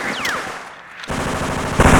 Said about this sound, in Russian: На земляной выступ забираются двое солдат с тяжелым пулеметом МГ-42.